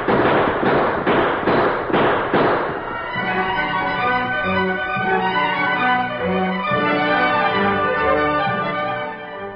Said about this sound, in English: We're going in shooting.